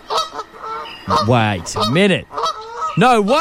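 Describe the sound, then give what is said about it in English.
A Canada goose honks loudly, giving several strong, nasal honks that swoop up and down in pitch, with a person speaking briefly alongside. “That is a Canada goose if I've heard one in my life.”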